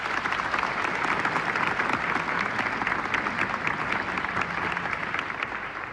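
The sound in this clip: Applause at a Turkish folk music concert, a dense, steady clatter of many hands clapping at an even loudness throughout, with no voices standing out above it.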